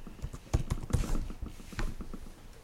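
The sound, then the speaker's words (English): Typing on a computer keyboard: faint, irregular key clicks, a few louder taps among softer ones, with no talk. “And now let me write the name, the formal name of that alliance for you. I'll type it on the screen.”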